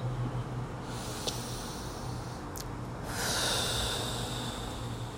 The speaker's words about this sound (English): I think I just need to take a deep breath.